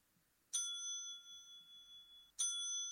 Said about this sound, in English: And that was our hotel desk bell. That's the bell that we have.